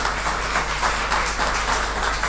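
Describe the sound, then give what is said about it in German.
A conference audience applauds a speaker at the start of a talk: dense, even clapping from many hands holds steady for the whole moment. “Ich würde sagen, großer Applaus für Margot, bitte.”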